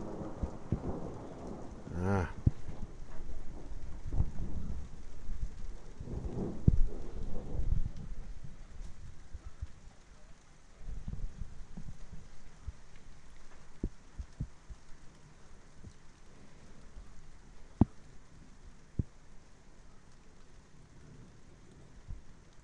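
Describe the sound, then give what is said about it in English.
Steady rain falls in a continuous, fairly faint patter, broken by occasional sharper drops and ticks. The hiss of the rain stays fairly even throughout, with no voices. “Well, rain is still coming down, slowly getting heavier, which I hope means the thunder's on its way.”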